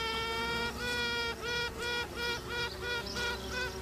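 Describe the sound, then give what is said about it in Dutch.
Queen bee piping in a hive, taken from a video: a longer tonal toot followed by many short, evenly spaced toots, each a buzzy harmonic tone, fairly faint over a steady hive hum. “Dit geluid komt van een filmpje en het is echt zot om te zien, want iedere keer als die koningin begint te tuten,”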